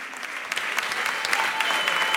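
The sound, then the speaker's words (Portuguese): Audience applause for the newly announced winner of Festival Termómetro 2026. Dense, steady clapping fills the whole stretch at an even, fairly strong level. “Uma salva de palmas para a Rita Cortesão.”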